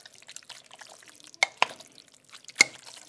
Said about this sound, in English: I'm neglecting her stirring this meat.